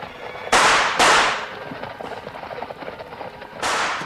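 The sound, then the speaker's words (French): Gunshots are fired at someone in a forest: three sharp, loud cracks, two close together and a third after a pause, with softer rustling and scuffing between them. “Ma parole, mais c'est sur moi qu'on tire!”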